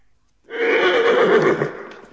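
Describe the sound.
A horse neighs in one loud, drawn-out whinny that starts abruptly after a brief quiet, holds with a shaky, quavering tone, then trails off more softly at the end.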